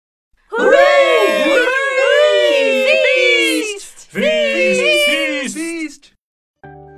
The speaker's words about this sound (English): villagers cheered. They were happy because they had seen a fight.